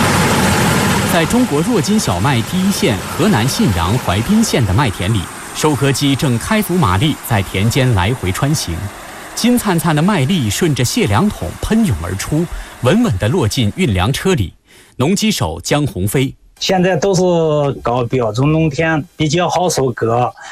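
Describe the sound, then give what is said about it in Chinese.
Combine harvesters working at full power in a wheat field in Huaibin, Henan, produce a steady, droning engine hum that runs continuously beneath a voice talking throughout. “在中国若金小麦第一线河南信阳淮滨县的麦田里，收割机正开足马力在田间来回穿行，金灿灿的麦粒顺着卸粮桶喷涌而出，稳稳地落进运粮车里。”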